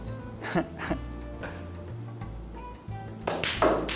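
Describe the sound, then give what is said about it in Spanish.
Pool cue shot striking billiard balls during an attempt to sink two balls with a single shot. A few sharp clicks and knocks stand out over a steady low background hum. “Mira, aprendo de respeto, voy a meter dos bolas de un solo tiro.”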